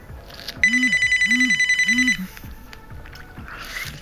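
A telephone rings for an incoming call with a bright electronic trill that pulses rapidly for about a second and a half, then stops. Low murmuring sounds sit underneath the ring.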